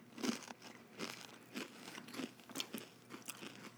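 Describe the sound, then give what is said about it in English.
Crunching on a kale cracker: many faint, uneven crunches and chewing sounds follow one another in a loose rhythm. “I'm going for the kale cracker now. I ate the whole thing because I care.”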